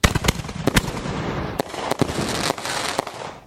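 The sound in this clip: A firework mortar shell opens with a sharp bang, then breaks into a dense crackling spray of many sharp pops and snaps over a few seconds before fading away.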